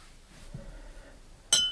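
A single bright clink of glass comes from an empty bottle being handled. It is sharp and brief, rising out of quiet background and ringing off quickly.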